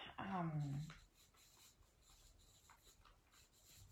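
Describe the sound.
A note is written by hand, a faint, soft scratching of pen on paper that continues after a brief vocal sound at the start.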